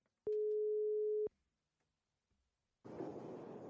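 Ringback tone of a telephone call being placed: one steady, mid-pitched tone lasting about a second, then near-silence, then a steady hiss of line noise starting up.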